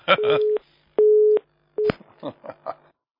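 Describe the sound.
A telephone busy tone sounds after a call is hung up: steady low beeps in short, evenly spaced bursts, the last one clipped short, with voices murmuring around them.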